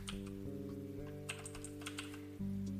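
Typing on a computer keyboard: quiet, irregular key clicks over a steady low hum, with a louder cluster of strokes near the end.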